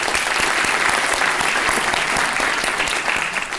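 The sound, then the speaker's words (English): Sustained audience applause at an evening talk and Q&A event: dense, steady clapping from many hands at an even, fairly loud level throughout. “Let's give them a hand.”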